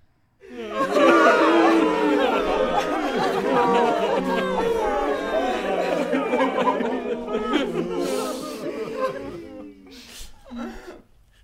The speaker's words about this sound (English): It took me ages to find that, by the way. A crying crowd. Where did you find that from? YouTube. It was on YouTube. You were trying to look for it. I was looking for crying crowds,